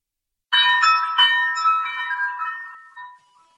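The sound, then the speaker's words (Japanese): A cowbell hung on a shop door clangs as people leave. Two bright metallic strikes ring on and decay slowly, then a fainter ring follows near the end. “カウベルの音。”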